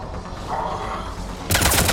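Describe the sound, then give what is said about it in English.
Gunfire in a sci-fi shooter video game: a dense burst of shots breaks out after a quieter stretch of game ambience and keeps going to the end. “Shields, and then shoot them.”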